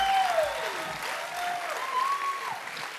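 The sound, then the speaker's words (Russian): A church audience applauding loudly during a Hillsong Kyiv service, dense steady clapping that carries on without pause. “Давайте Иисусу дадим самые главные громкие аплодисменты сегодня.”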